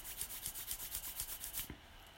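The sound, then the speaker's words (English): Palms rubbing briskly together at the close of a chanting meditation: a soft, dry swishing in a steady back-and-forth rhythm that repeats many times, then stops and leaves only faint hiss. “So rub your hands, feel that heat and warmth.”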